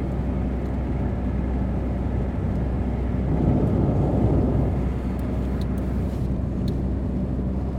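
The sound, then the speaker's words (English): A car drives around at night, giving a steady, continuous low engine and road rumble with no talking, holding an even loudness throughout and swelling only slightly near the middle. “I'm just driving around, not looking at street signs.”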